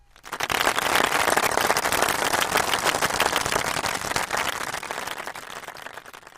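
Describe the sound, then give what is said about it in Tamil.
Dense applause from an audience clapping for a caller. It swells quickly and holds as a steady, crackling wash for several seconds, then thins slightly toward the end. “ரொம்ப அழகா பேசுனீங்க, உங்களுக்கு ஒரு கைதட்டல் கொடுத்துடலாம்.”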